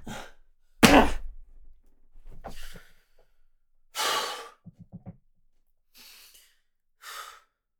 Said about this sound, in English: Calm down. Take a deep breath. There you go.